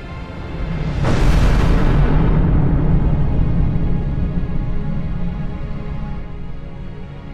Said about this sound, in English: a bright light overcame the display screens and lit up the darkness of the outer rim with the fire of 1,000 fires as the station was obliterated.